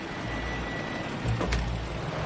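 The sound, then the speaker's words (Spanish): A car's engine rumbles steadily as it pulls up and stops near German soldiers at an airport during the Nazi era, with a brief swell of engine noise partway through. “El coche se detiene cerca de varios soldados alemanes.”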